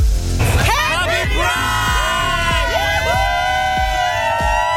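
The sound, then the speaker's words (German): A crowd at a Pride event cheers and yells together, with loud, overlapping whoops and shouts whose pitch rises and falls throughout. “Was ich trotzdem hinbekommen würde, wäre Happy Pride zu rufen, aber nicht so schön wie ihr.”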